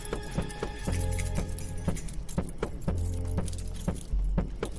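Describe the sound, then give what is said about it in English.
Keys jangle while handcuffs are unlocked: many light metallic clinks and rattles with bright ringing tones, scattered irregularly throughout. “Sabrina grabs keys off Martin and unlocks Justin's handcuffs”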